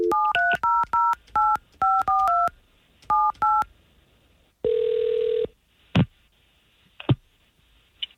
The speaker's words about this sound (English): We're going to call her right now and see if we can pinpoint what the problem is.